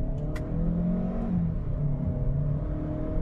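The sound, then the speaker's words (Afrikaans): A Chery car's 1.5 turbo petrol engine, paired with a CVT automatic gearbox, pulls under acceleration with a steady mid-pitched whirring drone that hums along evenly and loudly throughout, with no voices. “Die 1.5 turbo petrol skop 108 kW en 210 Nm uit en die Chery trek gewillig, gekoppel aan 'n CVT outomaties”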